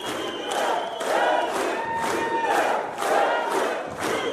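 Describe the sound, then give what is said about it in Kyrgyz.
A crowd of supporters shouts and applauds to greet a politician in rhythmic chanting surges about every half second, a loud, steady pulse of voices and clapping. “Тарапташтары элдик президент деп кыйкырып кол чаап тосуп алган саясатчы”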